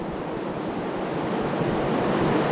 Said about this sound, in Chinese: 有一句古诗也能够非常好的来形容此刻的潮声，叫十万军声半夜潮，就像是这种十万军声般的轰鸣，低沉持续而越来越靠近。